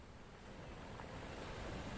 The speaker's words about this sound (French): dans la vague qui l'emporte toujours plus loin du rivage, vers le bleu infini